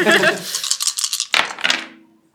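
Black dice rolled for a close-combat roll in a tabletop game give a dense, rattling clatter of quick clicks, then a couple of sharper tumbling knocks before the sound stops abruptly.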